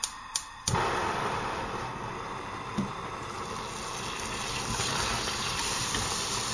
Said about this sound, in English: Melting the butter.